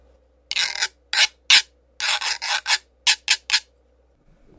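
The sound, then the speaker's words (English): A güiro, a hollow wooden fish-shaped instrument, is scraped with a stick, giving several short, dry rasping strokes in a loose rhythm, some spaced apart and others in quick clusters, with nothing else playing. “I also added a güiro, which looks like a fish, and you, like a hollow wooden fish, and you run a stick across it. Here's the sound it makes.”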